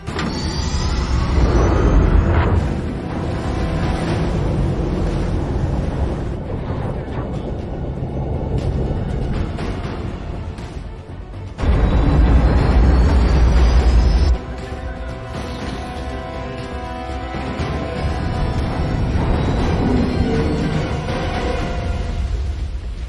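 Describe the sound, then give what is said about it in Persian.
A ship passes close by at sea, a loud continuous low engine rumble under a broad rushing wash that swells, dips and surges again, with no talk. “دومین کشتی از نزدیکترین فاصلمون رد شد.”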